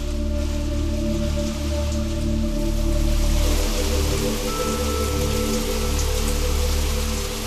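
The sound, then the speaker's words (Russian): Heavy rain pours down in a loud, continuous downpour, a dense, steady hiss of water hitting surfaces that holds without pause. “Дождь рухнул с неба, как будто кто-то опрокинул катку с водой.”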